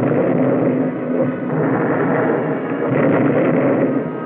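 Explosions as US forces demolish the air base at Guilin to prevent its capture by Japanese troops: a loud, continuous rumbling roar that holds a steady level throughout, with no clear individual blasts.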